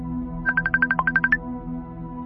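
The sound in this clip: A phone ringtone sounds for an incoming Messenger call in a horror drama: a quick run of short, bright electronic beeps, one dipping lower in pitch midway, over a low steady hum.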